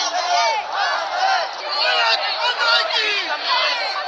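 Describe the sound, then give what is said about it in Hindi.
Indians in Muscat welcoming the Prime Minister chant Bharat Mata ki Jai and Vande Mataram slogans, with many voices shouting in loud, rhythmic waves that rise and fall throughout. “सभी ने भारत माता की जय और वंदे मातरम के नारे लगाकर प्रधानमंत्री का हौसला बढ़ाया।”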